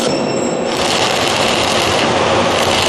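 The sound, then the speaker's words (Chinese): Electric arc welding along a horizontal seam at high current gives a loud, dense, crackling hiss. The sound runs steadily and without a break from start to finish. “他正在焊接一道说横缝，从那个电弧声音听来，他这是电流比较大。”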